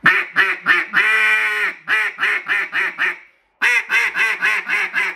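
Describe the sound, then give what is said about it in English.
A nose dive duck call is blown: a few nasal quacks, one long held note, a quick run of quacks, a brief silence, then another rhythmic series of loud quacks. “I always recommend going with that nose dive. Something that's easy to get started. It's kind of a great duck call and training wheel.”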